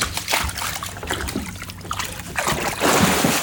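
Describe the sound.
An animal jumps into an indoor wooden-edged pool in a small room. Water sloshes and dribbles in uneven bursts, ending in a louder splash.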